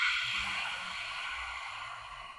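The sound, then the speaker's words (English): Slow breath drawn in through the nose and let out through the mouth as a breathing exercise before chanting om, a steady airy hiss that holds at an even level without any talk. “So clearing your breath first. Inhale through your nose. Exhale out the mouth.”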